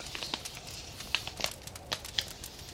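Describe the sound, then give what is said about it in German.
A paper envelope being opened, giving soft crinkling and tearing with a scattered series of faint, crisp crackles and ticks. “Was haben wir denn hier? Ein Umschlag. Na, ich bin gespannt, was sich hier drin verbirgt.”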